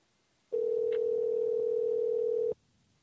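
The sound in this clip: Telephone ringback tone heard while placing a call: one steady mid-pitched tone of about two seconds that starts and stops abruptly, alone over faint background hiss.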